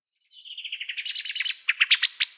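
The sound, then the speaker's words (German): Common blackbird giving its scolding alarm call: a rapid, high-pitched chattering series of many sharp notes that starts soft and grows louder and more spaced toward the end, alone without other sounds. “Genau, das ist eine Amsel. Das ist der, ja, der sogenannte Meckerruf.”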